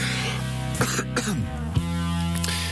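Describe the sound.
A few short, dry coughs from a tickle in the throat, sharp separate bursts over a steady tonal background.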